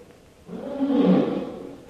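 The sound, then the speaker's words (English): A tiger roars during a hunt from a raised platform, one low, rough roar that builds, peaks and then trails away. “Tiger not killed. I didn't kill him. Look out, he's coming this way.”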